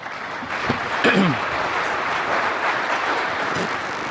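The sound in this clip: An audience at a safety and health gathering applauds to welcome a speaker with steady, even clapping. A brief vocal cheer rises shortly after the applause begins.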